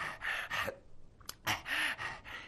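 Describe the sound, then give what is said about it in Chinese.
A storyteller's voice imitates heavy panting in a series of quick, ragged gasps. The breaths are short, breathy bursts, some with a faint voiced catch, separated by brief pauses. “这铁观音站好了，大口大口的喘气，”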